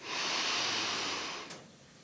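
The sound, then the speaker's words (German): Deep breathing, drawn in through the nose and let out through the mouth, as a single long, steady, airy rush. It is soft overall and drops away sharply near its end. “Und wir atmen durch die Nase ein und durch den Mund aus.”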